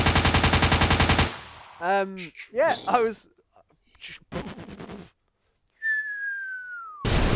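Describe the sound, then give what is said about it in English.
Voices imitate gunfire, starting with a rapid, loud rattling burst like a machine gun. Choppy mouth-made bangs and spoken sounds follow, along with a falling whistle, before another rattling burst at the end. “We're making gun noises. I genuinely was.”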